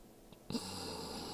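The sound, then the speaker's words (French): A long, slow inhale through the nose with the mouth closed begins with a soft snort-like onset, then continues as a steady, quiet airy hiss. “La même chose maintenant, mais la bouche fermée. Sans forcer, une longue inspiration”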